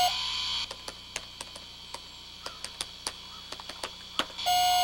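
Beeping alarm from an old film computer: a steady electronic tone opens the sound, many sharp, irregular ticks and clicks follow, and the steady tone returns at the end.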